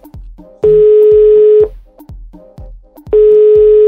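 A telephone ringback tone on a call: two long, steady, low-pitched electronic beeps separated by a pause of roughly a second and a half, the second cut off at the end, with soft rhythmic thumps between them.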